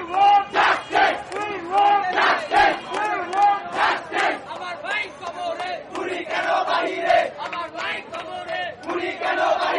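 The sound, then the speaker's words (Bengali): Student protesters in a street chant slogans together, a loud crowd of voices pulsing in regular shouted bursts with a steady rhythmic beat. “এ সময় স্লোগানে মুখর ছিল রাজপথ।”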